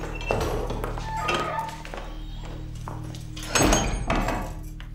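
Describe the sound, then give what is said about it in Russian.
A door is shut with dull thuds and knocks, one near the start and a heavier bang toward the end, among softer rustling and handling noises. “Женщина выходит, дверь закрывают.”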